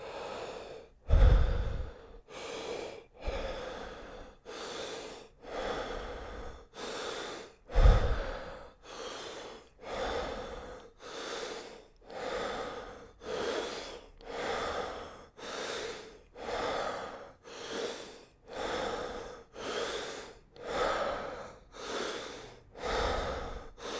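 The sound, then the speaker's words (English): Deep breathing during a breathing exercise: many forceful, airy breaths follow one another in a steady, even rhythm, each a rushing whoosh of air, with no talking. “you're going to take 30 breaths in. So I'm going to go with you.”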